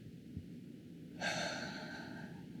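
A single deep breath, a short, faint rush of air that swells suddenly and then trails off over a quiet background.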